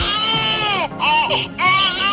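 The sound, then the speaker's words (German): Electronic baby doll crying, a doll from a parenting trial project for teenagers, gives loud, high wailing cries in three bursts separated by short breaths. “die Babys in diesem Projekt sind Puppen. Schreien können die aber auch und das fürchterlich.”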